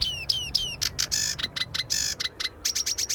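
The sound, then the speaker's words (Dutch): A sedge warbler sings in reeds: a very fast, varied run of high chirps, buzzy notes and sweeping whistles in quick bursts with brief gaps, with no voices. “De rietzanger is echt heel erg snel.”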